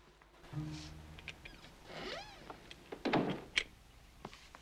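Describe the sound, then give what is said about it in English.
A door is pulled shut as someone enters a kitchen: faint creaks and scrapes, then a few soft thuds and clicks near the end, all fairly quiet with no speech. “then he pulls a door shut.”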